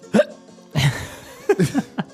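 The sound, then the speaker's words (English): Several sharp hiccups come as short, voiced gulps in an uneven rhythm, some bunched close together near the end, with no talk. “Singhiozzo. It's a Singhiozzo. That's hiccup.”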